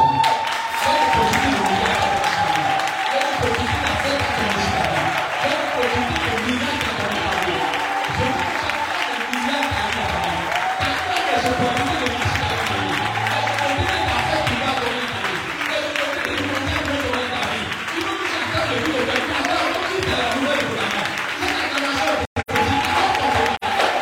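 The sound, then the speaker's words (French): Applause and cheering from a standing church audience, a dense, loud and sustained roar of clapping mixed with crowd voices that barely varies for the whole stretch. “Je veux que quelqu'un qui soit fou et qu'il se tient pour acclamer”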